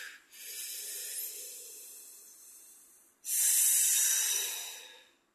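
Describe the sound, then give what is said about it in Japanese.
A deep breath taken during an exercise break: a long, airy intake of breath, then a sudden louder, hissing rush of breath that slowly fades, with no talking. “ちょっと体を動かして一息入れましょう。はい、深呼吸。”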